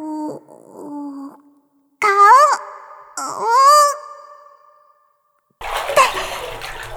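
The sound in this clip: Water splashes as a face is dipped into a pool in a video game, a burst of bright, noisy spray near the end that follows a few gliding, tonal, voice-like sounds.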